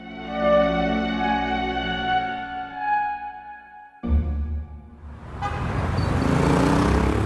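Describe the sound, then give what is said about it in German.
A black Talbot car drives up the Champs-Élysées toward the Étoile. A steady, tonal engine drone gives way abruptly to a louder, broad rushing road noise that holds to the end. “Der schwarze Talbot fährt über die Champs-Élysées zum Étoile hinauf.”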